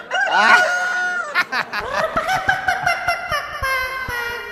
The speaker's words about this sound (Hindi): मुर्गा नहीं मुर्गी।